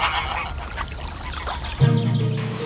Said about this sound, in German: Sie hüteten die Gänse, bis es dunkel wurde, und trieben sie dann zurück zum Schloss.